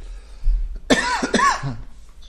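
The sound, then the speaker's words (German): A few sharp coughs break out in a short coughing fit, loud bursts close together after a quiet start, with no talk over them. “Ja, war Zeit der Hustenanfälle im Podcast. War richtig schlimm. Wenn ihr dauernd hustet, weiß ich nicht, ob ich jetzt wieder reden soll oder ob ihr wart, bis ihr gehustet habt.”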